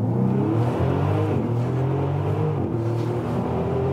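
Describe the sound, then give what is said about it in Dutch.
A Bentley Continental GT Supersports, the older model, accelerating hard at speed above 100 km/h. Its engine note climbs in pitch and twice drops sharply before rising again, loud and continuous with no talk over it. “Dit is, nou ja, we rijden al lang meer dan 100 km per uur. Met 3,5 seconden naar de 100 in de Bentley Continental GT Supersports.”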